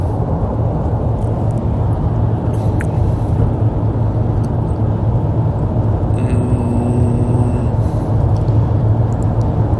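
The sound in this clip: Steady road noise from a car driving on a highway: a continuous low rumble and roar that holds even throughout, with no talk.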